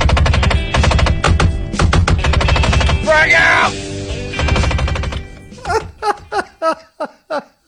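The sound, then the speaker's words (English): Failing car window actuators rattle in rapid, loud, machine-gun-like bursts. A short voice breaks in midway, and the sound ends as a string of separate, sharp, decaying pops. “This is what he sounds like. My window actuators are going out, so it sounds like I'm having a hell of a firefight in here.”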